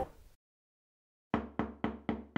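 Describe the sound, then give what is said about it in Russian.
Knocking at a door: after a brief hiss and a pause of silence, five sharp, evenly spaced raps sound alone, each with a short decay. “Наконец у дверей раздался стук, заставивший его неприятно очнуться.”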